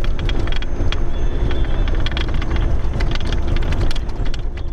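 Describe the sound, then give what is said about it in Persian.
Humvee armored vehicles of Afghan forces moving toward Tarinkot in Uruzgan: a loud, steady engine rumble runs throughout, with many sharp rattling clicks and knocks over it. “این صدای زره پوشهای هاموی است که نیروهای افغان آن را به شهر ترینکوت، مناطقی که تازه از وجود طالبان پاکسازی شدند، انتقال می دهند.”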